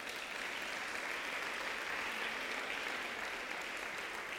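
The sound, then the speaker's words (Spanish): An audience applauds during a church sermon, a dense, even wash of clapping that holds steady for about four seconds with no voices standing out. “Dar un aplauso a Jesús.”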